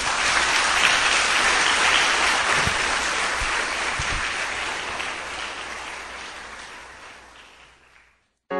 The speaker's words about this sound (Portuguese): Vamos aplaudir o nosso Deus.